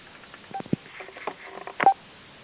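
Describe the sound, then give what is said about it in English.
Telephone keypad tones as someone dials a person back into a call: a few short, narrow-band beeps at uneven intervals over faint line hiss, with no talk. “I'm dialing her back in now.”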